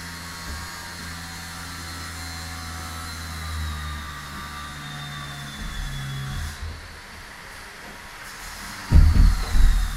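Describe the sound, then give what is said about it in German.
A floor sanding machine moves noisily over a wooden floor during renovation in a neighbouring flat in Berlin-Neukölln. It drones steadily with a thin high whine, then turns rougher, with loud heavy rumbling bursts near the end. “Eine Schleifmaschine, die lärmend über einen Holzboden fährt.”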